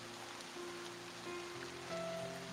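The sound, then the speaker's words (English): Rain falls during a storm as a steady, faint hiss, with soft low tones held beneath it throughout. “Does it look at all like the rain has let up like a little bit?”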